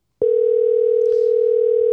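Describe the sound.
A telephone dial tone sounds while a call is placed to a caller. It starts abruptly after a brief silence and holds one steady, loud pitch with nothing else over it.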